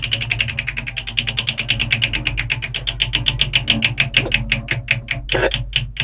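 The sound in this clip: A prize wheel spun hard, its clicker ticking in a fast, steady stream of many sharp clicks that run through the whole clip without a pause.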